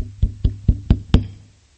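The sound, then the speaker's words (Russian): Five evenly spaced knocks on a house door, firm and hollow, each dying away quickly, with the last knock ringing out a little longer. “Пришел в один дом, постучал.”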